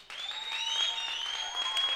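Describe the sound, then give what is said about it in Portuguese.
Applause from a group at a formal lineup where names are called one by one, many hands clapping densely and evenly for the full two seconds at a steady, fairly loud level. “palmas.”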